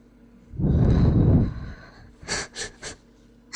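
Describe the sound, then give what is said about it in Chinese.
A person holding someone's feet under the nose takes one long, loud, rushing breath in through the nose, then lets out three short, sharp breathy puffs. “抱着我的脚放在鼻子下面深呼吸，然后吐气。”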